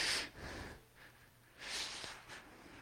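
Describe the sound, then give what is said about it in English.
A deep breath drawn and let out, with soft airy rushes of breath in a few swells, a strong one at the start and another later. “Take a deep breath.”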